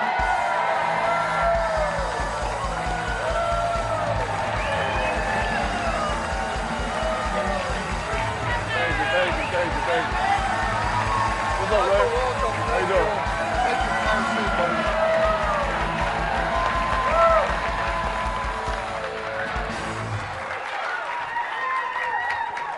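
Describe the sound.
Audience applause and cheering greet a football player arriving as guest on a Packers talk show, a dense, sustained roar of clapping with whoops and crowd noise mixed in.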